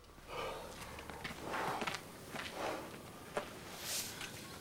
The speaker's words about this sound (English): She stands up, clamping a hand over her mouth. She walks out of the glasshouse.